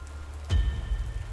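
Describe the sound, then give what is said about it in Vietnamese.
Rain grows heavier, with a steady patter of noise that swells abruptly partway through and stays louder and denser to the end. “Mưa bắt đầu lớn dần.”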